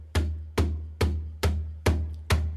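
Six bass-tone hits on a slap-top cajon held on the lap. Each hit is a deep, warm, booming thump with a sharp attack and a short decay, played at an even, steady pace.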